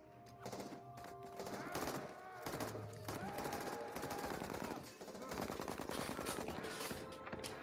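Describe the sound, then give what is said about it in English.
Gunfire erupts in a shootout with FBI agents, with many rapid shots in dense, sustained bursts that continue almost without a break over several seconds. “He's just shooting everyone.”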